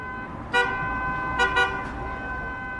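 A taxi horn hoots on a city road as the driver tries to attract passengers: a few short, loud toots, the later ones close together, over a steady hum of traffic.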